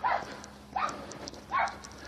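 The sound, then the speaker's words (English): Big dogs barking: three loud, evenly spaced barks, each short and sharp, over faint background noise. “Oh boy, big dogs.”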